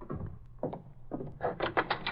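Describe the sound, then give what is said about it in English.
A door is opened with a few soft thumps and clicks, followed by a short cluster of brighter rattling clatter. The sounds are quiet, with no talk. “I'll open the door.”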